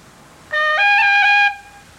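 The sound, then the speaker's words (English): A slow melodic phrase in reel style moves from D up to G, then into a G roll. Clear, pure tones with rich overtones step up in pitch, waver briefly on the ornamented note, then fade out after about a second. “The phrase D G followed by a G roll would sound like this.”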